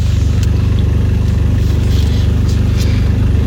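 A car's engine idles with a steady, loud low rumble as it is driven in and out of gear through a three-point turn. The tone stays even throughout, with no clear break at any gear change.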